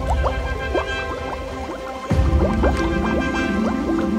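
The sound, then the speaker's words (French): A family of ducks diving into water: many quick dripping, gurgling plops and blips, then a fuller splash about halfway through, followed by continued bubbly, liquid sounds at a slightly louder level. “Alors, toute la famille du canard s'enfonça dans l'eau.”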